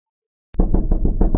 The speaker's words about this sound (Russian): Не успел он зайти домой, как в дверь настойчиво застучали.